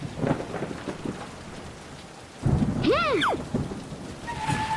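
Steady rain falls, then a sudden burst of thunder rumbles through the downpour, with a brief rising-and-falling whistling tone over it.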